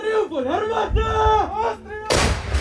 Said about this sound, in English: In Ukraine, the city of Bakhmut is under heavy artillery fire.